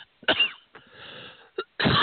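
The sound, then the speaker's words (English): A person coughing, a few harsh bursts of uneven loudness separated by short quiet pauses, ending on a stronger, longer cough, with no talk. “No, I'm just coughing.”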